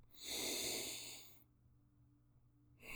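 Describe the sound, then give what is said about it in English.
A slow, deep inhalation through the nose in a guided breathing exercise, a soft airy rush lasting over a second. It fades to near silence before the next breath starts. “breathing in, eyes closed, breathing in through your nose, drawing breath”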